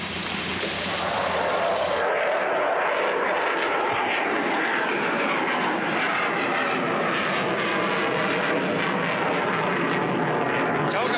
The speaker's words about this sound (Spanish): Está carreteando. Y ahora va a arrancar en el avión, vea.